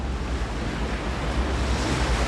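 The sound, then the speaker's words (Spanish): Ocean waves in the middle of the Pacific make a steady, broad roar of surf mixed with wind, constant in level from start to finish with no voices. “Tuve que aceptar el hecho de que estaba solo y con pantalones cortos, en medio del océano. No había nada. El avión se hundió. No vi paracaídas, ni a Jimmy, ni a Manny, ni nada. Solo el océano.”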